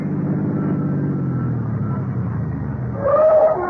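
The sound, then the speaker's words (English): A car's engine rumbles low and steady as it pulls up at a street corner in a no parking, no standing zone, ending with a brief high squeal and a slight rise in loudness. “Get in, Roby. This is a no parking, no standing zone. Want me to get a ticket? No, sir. Just drive through the park, Harry.”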